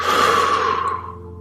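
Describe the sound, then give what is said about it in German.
A single deep breath out through the mouth after breathing in through the nose: a loud, airy rush of exhaled air that gradually fades over about a second and a half. “Und schließ die Augen und atme mal tief durch die Nase ein und durch den Mund wieder aus.”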